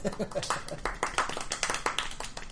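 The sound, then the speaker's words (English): Light, scattered hand claps from a few players at a board game table, giving mock golf-style polite applause, uneven taps mixed in with people talking. “Golf applause.”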